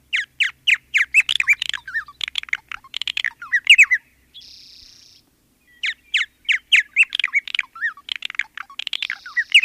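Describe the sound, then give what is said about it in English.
A purple martin, a large swallow, sings in many rapid chirping, gurgling notes. They fall into two busy bursts, split by a short steady buzzy note and a brief silence. “It's a purple martin, the largest of our area swallows, a beautiful, graceful bird with the male and unmistakably glossy purple-blue.”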